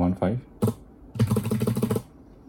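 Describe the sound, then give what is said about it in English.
Typing on an Apple butterfly keyboard: a few soft, flat taps, then a quick run of shallow keystrokes lasting under a second. “Right, and the keyboard sounds different. It's a butterfly keyboard. It's a butterfly keyboard from Apple versus the clicky keys of the Logitech”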